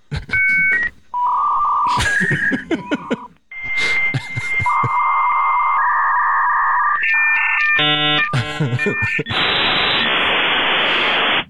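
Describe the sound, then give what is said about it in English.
Dial-up connection noise from an old computer, likely a Commodore 64, logging in: loud beeping tones, shifting electronic warbles and chirps, then a long harsh hiss of static that ends the sequence. “That's probably Commodore 64. Sounds like this when you log in.”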